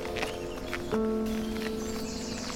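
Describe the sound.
Footsteps climbing old wooden steps, centuries-old stairs by a graveyard path, a few distinct footfalls over a steady outdoor background.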